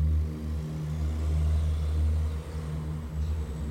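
A car engine runs with a steady, low rumble as the vehicle arrives to pick someone up, the note swelling slightly and dipping again near the end, with no voices.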